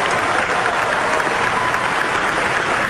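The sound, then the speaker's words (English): Applause from an audience at an oncology conference: dense, steady clapping that stays loud and even throughout, with no talk over it. “That is the sound of an oncology conference. The speaker unveiling the giant slide on the giant screen showing how that new drug”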